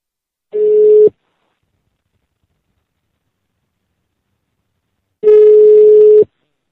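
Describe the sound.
A telephone ringback tone from a call placed from an office: two steady, mid-pitched tones, the first short and the second about twice as long, separated by a long silence.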